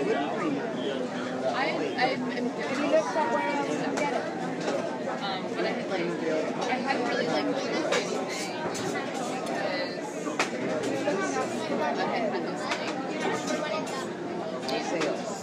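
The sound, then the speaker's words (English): Crowd chatter from many people waiting in a long line, a dense, continuous babble of overlapping conversations at a steady, moderate level with no single voice standing out. “The sounds you hear are real. This is a live studio audience. All kinds of conversations to be found here. It's like listening to all radio stations all at once.”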